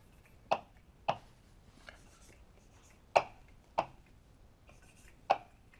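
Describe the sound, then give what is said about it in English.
Chalk-like writing on a board gives five sharp, dry taps at irregular intervals, each with a brief scratchy tail, against quiet room tone and no speech. “So let me write this as a, sorry.”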